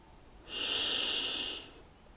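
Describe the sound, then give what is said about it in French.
A single long, deep inhale through the nose during a guided meditation. The steady airy hiss swells in, holds for about a second, then fades away, heard alone with no talking. “je vais t'inviter à prendre une grande inspiration par le nez”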